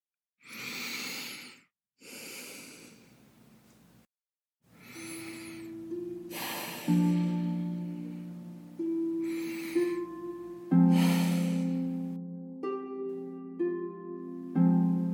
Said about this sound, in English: Take three deep final breaths